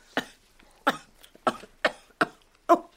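Someone coughs and chokes on a fishbone stuck in the throat: six sharp, hoarse coughs in a loose, uneven rhythm with short silences between them, heard alone without talk.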